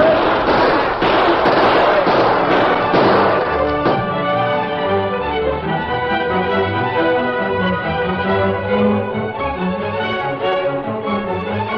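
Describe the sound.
Gunfire erupts in a Western shootout with rustlers, with many sharp, rapid shots packed into the opening few seconds, loud and dense.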